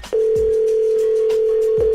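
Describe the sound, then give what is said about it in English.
Telephone dial tone heard while calling someone back: a steady single-pitched hum starts abruptly just after the opening and holds at constant loudness, with a few faint low thumps beneath it. “Let me call him back. Hold on.”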